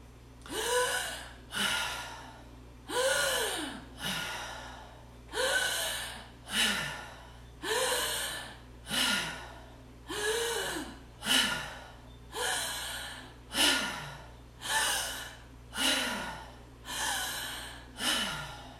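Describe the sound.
Open-mouth breathing in and out during a timed breathing exercise: many loud, rhythmic breaths repeat in a quick, steady pattern. No one talks.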